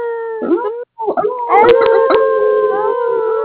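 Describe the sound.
Dogs howling at night beneath the moon: several long, wavering, tonal howls overlap and hold steady, sounding loud and close.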